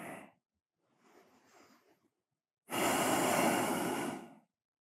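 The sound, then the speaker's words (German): Slow, relaxed breathing during a relaxation exercise: a faint short intake, then a soft drawn-in breath, followed by a long, loud, airy exhale, with no speech. “Nimm hm, noch ein paar entspannte Atemzüge.”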